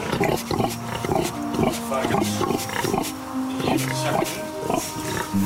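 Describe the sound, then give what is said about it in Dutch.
Pigs grunting on a farm where they are raised, with many short, rough grunts in a steady, busy stream over dense background noise. “Dus, ja, varkens. Ik vind het ook leuk, hè? Wat zijn dit voor varkens?”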